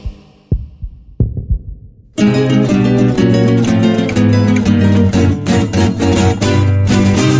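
Heartbeat sound effect in a radio station jingle: a few low, booming thumps arrive in paired beats, then loud full-band music cuts in and carries on steadily.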